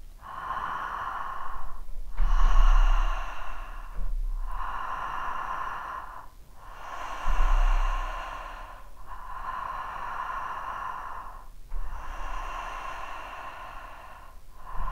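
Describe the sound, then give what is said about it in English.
Connected breathwork breathing through an open mouth, with a continuous inhale and exhale and no pause between them. Loud, rasping breath cycles repeat in a steady rhythm, alone and without talk, each swell rising and falling into the next. “it's a inhale. You make the sound R, A-H, and as you exhale, you make the sound ha, H.”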